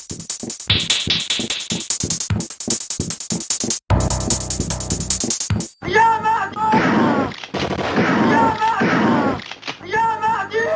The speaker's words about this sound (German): Und zusammen mit diesen Schussgeräuschen schafft das schon eine recht dichte, bedrohliche Atmosphäre